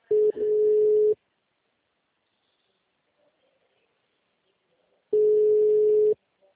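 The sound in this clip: A telephone line tone plays as two steady, mid-pitched beeps of about a second each. They are separated by roughly four seconds of silence.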